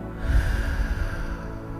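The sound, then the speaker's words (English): One deep breath drawn in and released during a guided meditation, an airy, low rush of air that swells early and then trails off softly. “So now that you've tuned into your natural rhythm, let's take 3 deep cleansing breaths. Deep breath in and release.”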